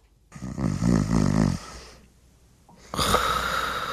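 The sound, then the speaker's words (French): A man snoring in his sleep, recorded at home: two long, loud, rasping snores, each a buzzing rattle on the in-breath, separated by a quieter pause. “il m'a dit qu'il te fait des sons quand il dort. Impossible pour moi d'avoir un sommeil dur. Vous me croyez pas? Comment il rentre? J'ai même déjà fait une toune parce que je l'enregistre quand il dort.”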